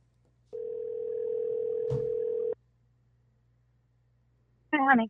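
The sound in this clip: A telephone ringback tone on a call line: a single steady, even-pitched ring lasting about two seconds. Silence follows, then a voice speaks briefly at the end.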